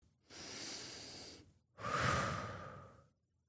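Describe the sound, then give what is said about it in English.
A deep breath during a calming exercise about handling big feelings: a long steady inhale followed after a short gap by a fuller, louder exhale, heard alone without talking. “I can take a deep breath. I take big deep breaths.”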